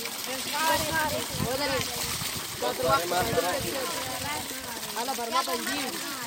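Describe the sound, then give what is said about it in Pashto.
Children's voices chatter and overlap at a water borehole north of Pishin as they fill water containers, with light splashing of water running beneath the steady talk. “دا د هغه ماشومانو ژغونه دي چې د اوبو له برمې څخه د اوبو لوښي ډکوي.”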